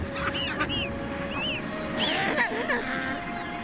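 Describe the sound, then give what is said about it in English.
Seabird chicks on a warm volcanic Antarctic island in midsummer, calling in a dense chorus of many overlapping chirps and squawks over a steady noisy background of colony sound. “by January, the Antarctic's midsummer, the island is covered in chicks.”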